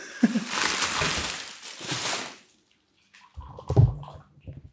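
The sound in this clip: Tea being poured, a steady splashing, trickling stream lasting a couple of seconds, then a short silence followed by quieter, lower clinks and rustles.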